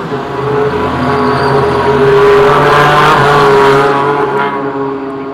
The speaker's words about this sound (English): Here comes the GT4s in this one. Multi-class GT racing. There they go. Let's listen.